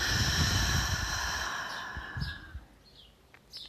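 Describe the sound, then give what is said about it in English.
A deep breath drawn in and let out through the mouth during a breathing exercise: one long, airy rush of breath, loudest at first and then fading, over a soft tonal background. “Let's end this practice with 3 deep breaths in together. Inhale. Let it out the mouth.”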